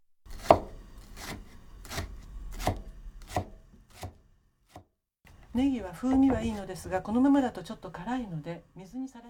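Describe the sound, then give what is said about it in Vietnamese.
Knife slicing a baro onion (leek) thinly into rings: a run of sharp, evenly spaced chopping strikes over the first half, then a person talks. “Cuối cùng, chúng ta sắc hành baro. Hãy sắc thật mỏng thành những vòng tròn.”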